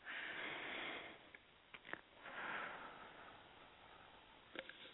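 A slow, deep breath during a guided relaxation exercise: two soft, airy swells of breathing, faint and unhurried, with a few tiny clicks between them.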